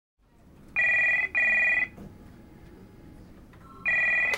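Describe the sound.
A telephone rings with a bright electronic double ring of two steady, harmonic bursts, then after a pause a third burst begins, preceded by a brief lower tone, over a low background hum.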